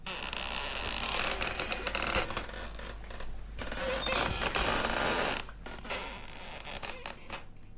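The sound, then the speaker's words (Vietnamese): An old door scrapes and grinds as it slowly opens in a musty old house, a loud, rough rasping that runs nearly continuously with a few short pauses, with no voices. “Cánh cửa có lẽ như đã lâu ngày, nó rít lên những tiếng nghe đến dần rợn cả người, vang lên trong căn nhà vốn dĩ đã đầy mùi ẩm mốc.”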